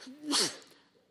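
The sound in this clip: A single sneeze during a lecture: a sharp, breathy burst that peaks quickly and then trails off softly.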